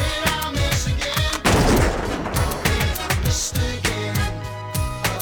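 Gunfire sound effect in a rap song: many sharp, rapid shots repeat over the bass-heavy beat, with a dense louder burst near the middle.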